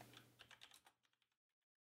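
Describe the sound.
Faint typing on a computer keyboard: a quick run of soft clicks that thins out into a few isolated taps and then stops.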